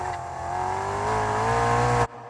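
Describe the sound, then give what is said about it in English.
Race car engine roaring around a track during speed trials in Jenin: a loud, sustained, buzzing engine drone held for about two seconds, then abruptly cut off. “They're doing speed trials. Whoever makes it around the track in the shortest amount of time wins.”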